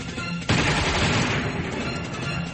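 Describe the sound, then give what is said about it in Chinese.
A gunfire sound effect of soldiers shooting at guerrilla fighters on a slope bursts in after a quieter half second, then rattles on as a dense, continuous fusillade that eases slightly toward the end. “鬼子们正在向游击队射击”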